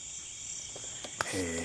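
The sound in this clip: Crickets chirp in a field on a rural farm, a steady, faint, high-pitched buzzing trill that runs throughout, with a voice beginning near the end.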